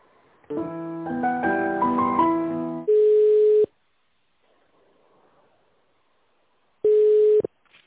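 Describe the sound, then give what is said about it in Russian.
Telephone line sounds while a call is transferred to an office extension: a short electronic melody, then a steady mid-pitched beep tone, a long near-silent gap, and a second identical tone. “Сейчас, минуточку, переключу вас на финансовый отдел Скалкина Светлана.”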